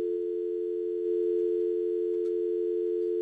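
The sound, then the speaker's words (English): A steady telephone dial tone sounds before an outgoing call is placed. It holds one low, unbroken pitch throughout at a constant, moderate level, with a faint click partway through and no voices. “The dial. Oh, let's see if that works. You want to hear that? Dialing up Kennedy here.”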